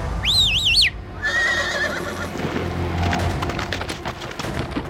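A black stallion neighs in one loud, wavering, high-pitched whinny at the start, then mixed noise and clatter continue to the end.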